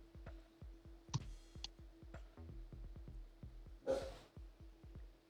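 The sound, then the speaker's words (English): A dog barks faintly in the background, with a couple of short barks standing out over steady, regular clicking, and no talking. “That's just my dog in the background being himself.”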